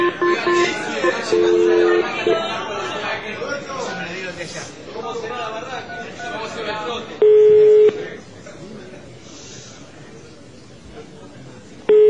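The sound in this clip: A telephone number is dialed on a keypad: a few short beeping tones sound over talk and background noise, followed later by one longer steady tone.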